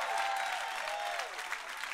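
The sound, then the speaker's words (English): An audience applauds, dense and steady hand clapping filling the whole clip at a moderate level. “Somebody give God a big hand clap right now.”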